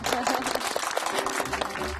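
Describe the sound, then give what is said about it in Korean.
Audience applause after young performers share their dreams: many overlapping hand claps form a dense, even rattle that holds at a steady, moderate level throughout. “자, 박수.”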